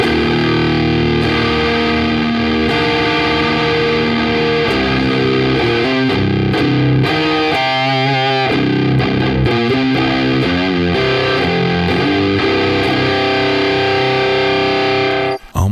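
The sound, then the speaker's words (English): Electric guitar through a Gatekeeper overdrive pedal adds an extra volume boost, playing through a Celestion Creamback speaker with a gritty tone just short of fuzz. Loud, sustained distorted chords and ringing notes play continuously, then stop abruptly at the end. “And the Keymaster or the secondary has about another 2 decibels of boost on the power, on the volume. But it sounds really cool. Check this out. Here is the gatekeeper.”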